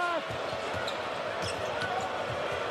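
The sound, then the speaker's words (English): A basketball is dribbled up court during a college game involving Wisconsin, with many steady, evenly spaced low bounces under dense, continuous crowd noise and a faint voice. “Dribbles up top, finds Breidenbach”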